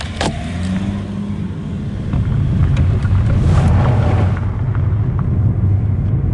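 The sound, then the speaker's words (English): A car winds out of a shed and heads toward town through Gore's green farmlands and down the highway, a continuous low engine and road rumble mixed with wind buffeting, swelling slightly midway and easing toward the end. “We wind our way out of the shed and back towards town. A short 10-minute drive, but one that takes us through Gore's green farmlands, down the highway and through the small but lively town.”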